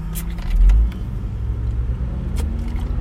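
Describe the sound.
A car being driven, heard as a steady low engine and road rumble that swells briefly early on and then stays even, with no talk.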